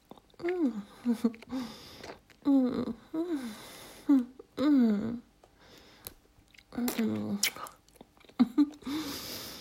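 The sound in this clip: A creature chews and munches on a human, with wet chewing and biting in irregular bursts over about ten seconds. Voiced growling and grunting sounds are mixed in between the chewing.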